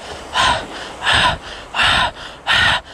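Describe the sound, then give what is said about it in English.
Breaths pushed out through the mouth during a chakra meditation exercise: four short, airy puffs in an even rhythm, about two-thirds of a second apart, fairly loud over a soft hiss. “And you're using your arms with your breath to breathe, like”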